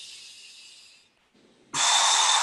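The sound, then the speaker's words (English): Deep breathing during a breathing exercise: a long airy hiss of air that fades away, a brief near-silent pause, then a sudden loud rush of breath that holds steady to the end. “And breathe in one more time. When you breathe in, not just needle, all these areas included, all in. Really retract everything in the abdomen, right?”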